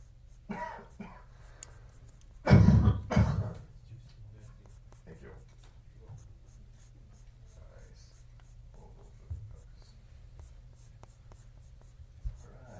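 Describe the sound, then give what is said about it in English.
Pencil scratching on paper while drawing a horizontal oval nose, a few soft strokes with one louder, rough scratching burst early on, then faint intermittent marks. “So we're going to draw the nose in between here. It is an oval. Horizontal oval.”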